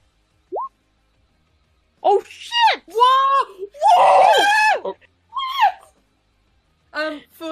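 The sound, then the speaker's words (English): A voice imitates a small girl screaming in a tabletop role-playing game, giving a brief high squeal and then a run of several loud, strained, wavering shrieks and wails with short gaps between them. “She lets out a scream, outstretches her hands.”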